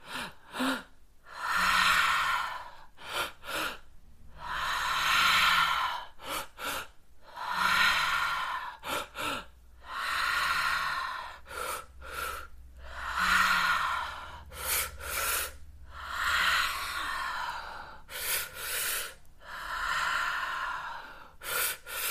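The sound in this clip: Guided breathing exercise of two inhales and one exhale, heard as many repeated cycles of sharp, snorting intakes and longer, rushing exhales through the nose and mouth, loud and steady, with brief silences between and no talk.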